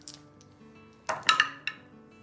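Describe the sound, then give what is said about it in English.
Two six-sided dice are rolled during a tabletop roleplaying game, giving a few faint, sharp clicks and clatters as they tumble and settle on a hard surface. “so I rolled 10 on the 2d6s”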